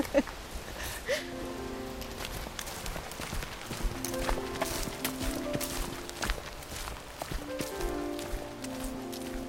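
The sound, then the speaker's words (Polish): A dead tree trunk rubbing against a huge, tall spruce as it sways gives repeated drawn-out creaks and groans of wood. Footsteps and light rustling run underneath. “Ten świerk taki, on jest w ogóle ogromny, taki wysoki. To jak on się lekko porusza, to po prostu ten pień martwy o niego ociera.”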